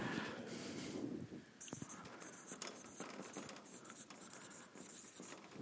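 Faint scratching of handwriting, with soft, uneven strokes of a pen continuing steadily.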